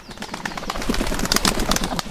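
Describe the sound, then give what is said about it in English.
Band-tailed pigeons, bulky forest pigeons of the western states, flap their wings in a quick run of fluttering wingbeats that hold at a fairly steady loudness for about two seconds. “Strictly a bird of the western states, the band-tailed pigeon is decreasing in numbers.”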